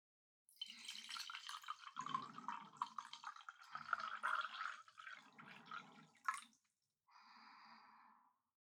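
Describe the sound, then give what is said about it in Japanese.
Tea is poured from above through a strainer into a cup. A soft, faint trickling and splashing stream runs for several seconds, followed after a pause by a brief, quieter trickle. “茶こしをカップにセットして、その上からお茶を注ぐの。こうやって。”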